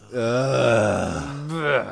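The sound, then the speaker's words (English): Groaning in reaction to news of a band's added tour date: a long, low, drawn-out groan with wavering pitch, followed by a shorter second groan. “Everybody get a groan ready.”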